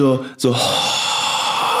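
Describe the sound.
A voice imitates heavy, stressed breathing: a short voiced sound breaks off into a sharp gasp, followed by a long, loud, breathy rush of air.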